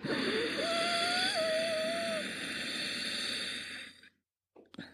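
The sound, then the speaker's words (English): A long, steady inhale through the nose with the back of the throat gently contracted gives a soft, hissing breath with a faint whistling tone, lasting about four seconds before it fades into silence. “Let's do that a couple more times together. Inhale through the nose while gently contracting the back of your throat.”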